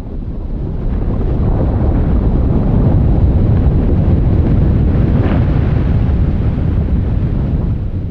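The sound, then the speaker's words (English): A glacier the size of Manhattan cracking apart in Greenland gives a deep, continuous roaring rumble that stays loud and steady for about eight seconds, with no voices. “That's the sound of a glacier the size of Manhattan cracking apart in Greenland.”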